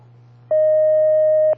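A single steady telephone line tone sounds for about one second as a new call connects on a call-in phone line, over a constant low hum that runs before and after it.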